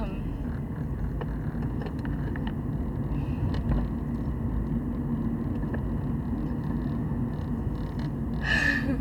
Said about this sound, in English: as you can probably tell, I'm in my car right now, so I might pause sometimes just to make sure I'm not crashing into anything.